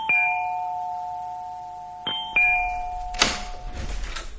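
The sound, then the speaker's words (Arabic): Doorbell ringing: three bright, sustained chime tones, a single ding followed after a gap by two in quick succession, then a dull thud and some rustling. “أنا جيت النهاردة للأستاذ فؤاد وضربت الجرس.”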